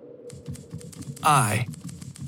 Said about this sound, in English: the steady clatter of the typewriter almost deafening in that small space